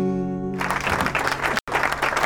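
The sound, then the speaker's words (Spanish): Loud applause breaks out as a voice trails off: a dense, crackling wash of many clapping hands holds strong, broken only by a very short dropout before it resumes. “Aplauso fuerte.”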